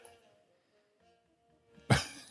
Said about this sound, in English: Was that a sneeze or a cough? Sneeze.